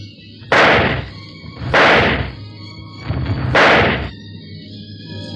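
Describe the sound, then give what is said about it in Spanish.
A revolver fires three times, each shot a sharp, loud blast with a short decaying tail. The shots come at uneven intervals over about four seconds, with no voices. “El sargento Norton hizo fusionar 3 veces su revólver apuntando hacia el hombre que huía hasta perderse en las sombras.”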